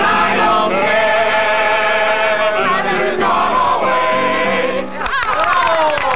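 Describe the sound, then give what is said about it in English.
A group of voices sings the folk song Jimmy Crack Corn together at a 1950s party, a loud, sustained chorus with held notes that dips briefly near the end before the singing picks up again. “They liked rock and roll. They're listening to Elvis. Instead of all singing an Elvis tune, they're singing Jimmy Crack Corn.”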